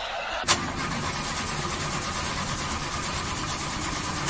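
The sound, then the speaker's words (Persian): A car engine cranks but fails to start, with the fault blamed on the clutch plate. A sharp click is followed by a steady, continuous whirring that runs unchanged for about four seconds. “داداش از صفحه کلاجشه، متوجهی؟ آقا استارت نمیخوره.”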